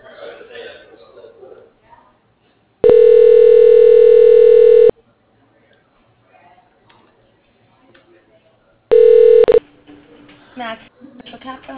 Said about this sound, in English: If you know your party's extension, you may dial it at any time. For a dial by name directory, press 8.